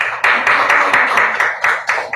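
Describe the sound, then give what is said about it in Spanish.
Applause for an architect at the judging of design proposals: a loud run of many evenly spaced, crisp claps in a steady rhythm. “Por favor, aplausos para nuestro arquitecto.”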